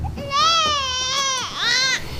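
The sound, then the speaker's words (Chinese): An infant cries in two drawn-out, high, tonal wails; the first is long and the second shorter, following a brief break. “你别哭了”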